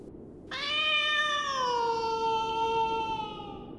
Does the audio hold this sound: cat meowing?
yes